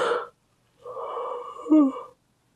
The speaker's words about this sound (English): All of a sudden, every time I start recording, all of a sudden I have to yawn.